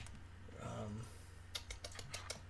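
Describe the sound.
Quick keystrokes clatter on a computer keyboard as someone types into a Google search. A short stretch of speech comes first, then a rapid burst of crisp clicking keys.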